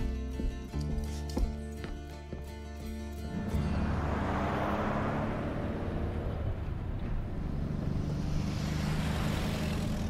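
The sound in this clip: A car brought round and driven off: after an opening tonal passage, the engine noise swells into a steady, broad rumbling roar that holds to the end.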